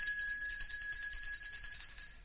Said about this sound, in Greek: Ούτε αυτό ήταν κουδουνίστρα του δήμαρχου. Αυτό ήταν το κουδούνι του σχολείου.